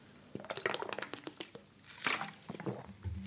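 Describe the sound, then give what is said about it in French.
Water being poured and sipped, heard as a few quiet splashy, clicking liquid sounds in an uneven run of short bursts, with no talk over them. “je fais une petite pause pour boire un petit peu d'eau.”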